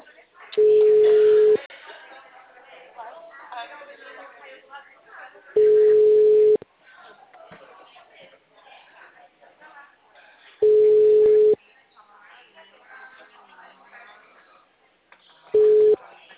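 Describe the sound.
A telephone busy signal after a dropped call: four steady mid-pitched tones, each about a second long and spaced several seconds apart, with quieter talk between them.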